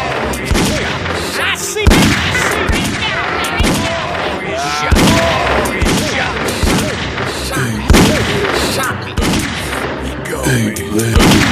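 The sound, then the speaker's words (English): Loud, dense gunfire fills a video game shootout, with rapid overlapping shots and booming bursts that continue without pause. “I just shot somebody in the center of the stereo field by accident.”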